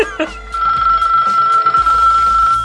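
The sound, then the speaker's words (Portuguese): A cell phone ringtone, downloaded as a Portuguese woman's voice calling to answer the Telegram, sounds loud as a sustained, steady electronic tone after a couple of brief broken bursts at the start. “Então ele baixou os toques de celular da portuguesa, né? Que ela fala, atende o Telegram. Esse toque aí, toca aí.”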